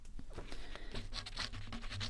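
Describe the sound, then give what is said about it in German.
Pen scratching across papers as inheritance documents are signed at a law office, a quiet run of quick, rasping strokes. “So, du kannst jetzt hier unterschreiben.”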